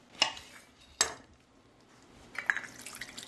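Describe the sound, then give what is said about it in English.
A knife cutting a grapefruit in half crosswise, heard as two sharp, separate clicks followed by a run of soft, wet crackles. “And okay, I'm cutting it in half crosswise.”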